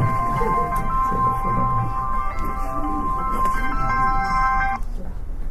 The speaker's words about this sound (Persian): خیلی معذرت میخوام خب اینم یه زنگ تفریحی برای اینکه شما بخندید